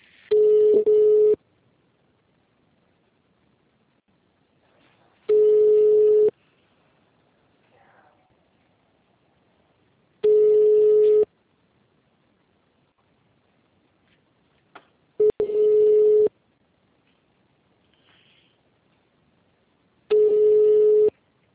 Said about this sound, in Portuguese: Agora que eu tive essa ideia de ligar lá.